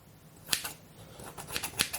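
Cooked spaghetti is cut to fit a lasagne dish with a kitchen cutter meant for vegetables and pasta. It makes several crisp, sharp clicks and snips in a quick, uneven rhythm, with no talking.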